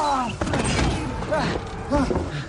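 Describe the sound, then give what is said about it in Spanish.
A door without a latch is shut and shoved hard, giving a few heavy thumps and scraping knocks while several voices shout over the noise. “Cierran la puerta y la empujan con fuerza.”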